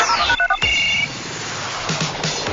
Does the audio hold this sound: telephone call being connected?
yes